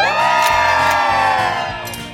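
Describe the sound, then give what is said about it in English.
Studio audience in New York City cheering and whooping on a Monday morning television show, a loud, steady roar of voices that tapers off slightly at the end. “Look at all those smiling faces. Hello. Girls trips and birthdays and anniversaries. That's it. That's a good Monday crowd.”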